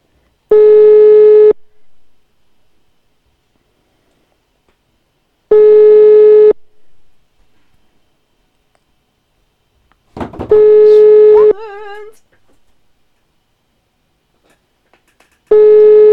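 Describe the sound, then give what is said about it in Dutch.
A telephone ringing tone sounds while a call is dialed out: a steady, mid-pitched buzz lasting about a second repeats four times, separated by long silent gaps, with the last one cut off. “Is hij aan het bellen? Ja, hij is aan het bellen. Mooi zo. Daar gaat hij.”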